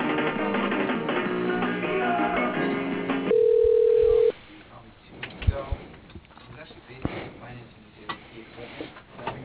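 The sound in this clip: One steady phone ring tone lasting about a second sounds as a call is forwarded to voicemail. Hold music plays before it and talk follows.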